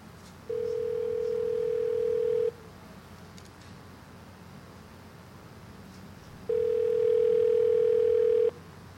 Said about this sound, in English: I'm dialing the number, and please don't decode the number because it's a secret.